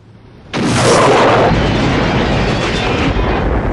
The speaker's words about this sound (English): Cindy picks up the multi-rocket launcher and fires it. It's pointing the wrong way.